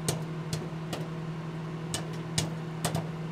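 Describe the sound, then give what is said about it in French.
Popcorn cooking: several sharp, irregularly spaced pops crackle over a steady low mechanical hum, all fairly faint. “Ah, il y a le popcorn qui cuit. Ça sent bon le gras tout ça.”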